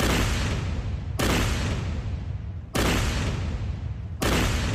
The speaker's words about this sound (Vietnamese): Các đồng chí, chuẩn bị loạt ba, ngắt đạn. Ngắt đạn xong. Chuẩn bị. Bắn.